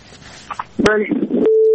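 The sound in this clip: A steady mid-pitched telephone line tone from a failed incoming call, starting about halfway through and holding unchanged to the end after a short stretch of scattered noise and voice-like sounds.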